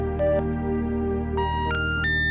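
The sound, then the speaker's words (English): Telephone intercept tones on dialing a disconnected number: steady electronic beeps, the last three stepping upward in pitch in quick succession, over a constant low line hum with no voices. “This is what happens when you dial his phone number.”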